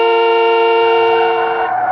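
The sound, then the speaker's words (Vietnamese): A car horn honks as the car drives up a dusty road. It gives one long, loud, steady blare with a bright buzzing tone that wavers near the end, joined partway through by a low rumble. “Có một chiếc xe hơi phía dưới Phú Tiên chạy lên, bụi bay mịt mù bóp kèn te te.”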